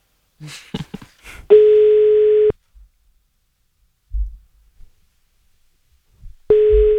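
Phone tones sound while a call is being placed. A few faint clicks come first, then a steady mid-pitched beep lasts about a second. A long silence follows before the same beep starts again.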